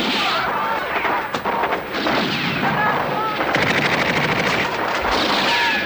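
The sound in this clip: Dense gunfire from an action film: loud, continuous bursts of shots and heavy booms filling the whole clip without a break.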